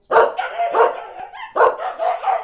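A dog barks several times in a quick series of loud, rough barks with brief gaps between them and no talk over them.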